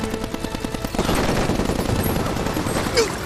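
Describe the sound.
Heavy machine gun fire during a battle over bridge planks: a short run of rapid, regular bursts, then a dense, loud, continuous roar of overlapping gunfire.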